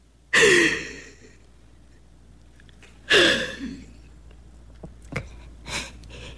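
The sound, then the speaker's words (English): Two deep, sighing breaths, each a loud airy inhale and exhale a few seconds apart, followed by faint, short breathy sounds. “Come on, let's just breathe. Take a deep breath”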